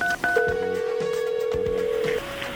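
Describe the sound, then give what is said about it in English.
Telephone tones from a call being dialed to a hotel: a few brief electronic dialing beeps, then one long, steady, buzzy tone holding for almost two seconds before cutting off. “Let's call them at the hotel. Do you have that number? Yes, I do. I don't have to dial one, do I?”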